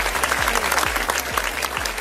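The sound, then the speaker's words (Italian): Applause for two DJs on a dance radio station, a dense, bright rush of clapping laid over a pounding dance beat with evenly spaced bass kicks. “Facciamo un applauso a DJ De Niro e anche a DJ Tiga, entrambi fantastici.”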